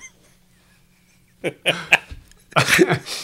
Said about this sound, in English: Snorts and clears his throat, said Debbie